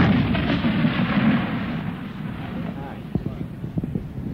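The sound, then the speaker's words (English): Recoilless rifles mounted on jeeps firing: a heavy, roaring rumble fills the first half, then a few sharp booming reports punch through. Wind buffets the microphone underneath. “You'll hear the recoilless rifle in action.”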